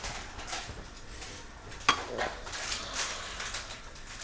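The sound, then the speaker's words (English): Spoon stirring a mixture in a pot on a cooker to heat it through: quiet, irregular scraping and shuffling, broken by one sharper metallic clink. “Mixing up so it gets really hot.”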